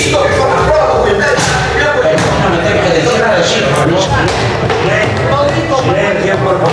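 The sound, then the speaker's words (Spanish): A shoe is banged against a parliament seat during a heated 1993 confrontation. Repeated dull thumps sound beneath a loud, continuous din of voices in the chamber. “Y ahí se oye el zapatazo.”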